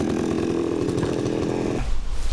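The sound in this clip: A chainsaw cuts firewood for winter with a steady, buzzing drone. The engine noise drops away near the end, leaving only a low rumble.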